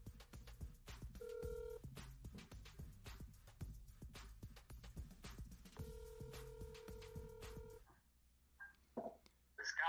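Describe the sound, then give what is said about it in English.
A telephone call being placed, with two long, steady electronic tones a few seconds apart over faint clicking and crackle on the line. The line then drops to near quiet, with a few soft sounds. “We're dialing up Kyle.”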